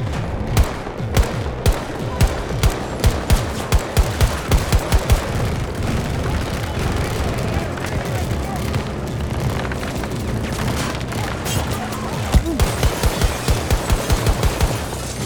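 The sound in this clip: Automatic AK rifle fire in a video game comes in rapid volleys of loud, sharp shots, one long string early and another near the end, over a constant rumbling battle din.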